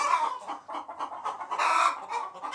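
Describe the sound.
A hen clucks after settling onto her nest, giving many short, throaty clucks in an uneven, continuous run with no talking.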